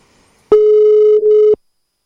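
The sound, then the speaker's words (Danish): A telephone ringback tone on an outgoing call: one loud, steady, pure tone lasting about a second, with a brief dip shortly before it stops, then silence. “Så vi lige prøver at ringe til hende igen.”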